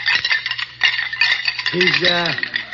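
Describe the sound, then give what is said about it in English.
Bones being rattled: many rapid, dry clicks and clatters run through the whole clip, loud and uneven in rhythm. “He's rattling bones.”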